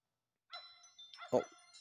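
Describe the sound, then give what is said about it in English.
A dog in a video game barks at a cave opening: one short, sharp bark rising out of chiming, tonal game effects. “the dog's barking at the hole.”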